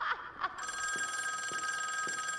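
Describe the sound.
A telephone rings in the boss's room: after a couple of short tones, a steady, bright electronic ring sets in and continues unbroken at an even loudness to the end.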